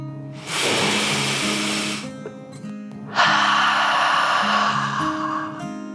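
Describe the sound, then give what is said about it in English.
A deep, slow breath drawn in and then let out, a dragon's breath in a calming nap-time story. Two long airy rushes, the second louder, sit over soft sustained low tones. “With a deep dragon breath in and out,”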